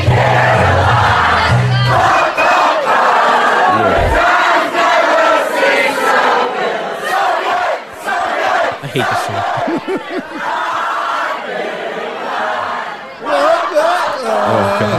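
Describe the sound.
A drunk crowd sings together loudly with a lot of shouting, the mass of voices rough and uneven, dipping briefly a few times before surging back.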